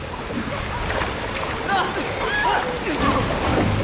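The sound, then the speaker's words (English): Water gushing from a giant faucet into a tank where people are treading water, a continuous sloshing rush with voices heard over it. “The giant faucet continues spewing more and more water into the tank.”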